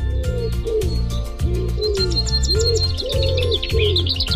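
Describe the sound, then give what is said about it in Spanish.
Songs of city birds in Buenos Aires: chirps and tweets with dove-like cooing over a steady, repeating low backing that runs throughout. “¿Podrías reconocer los cantos de las aves de la ciudad?”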